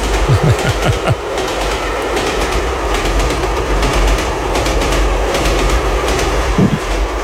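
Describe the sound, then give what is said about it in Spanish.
A train runs on its rails, recorded at the opening of a classical music stereo album, giving a loud, steady rumbling roar with the rattling clatter of wheels throughout. “que esto es de música clásica, aunque aparece un tren aquí al principio.”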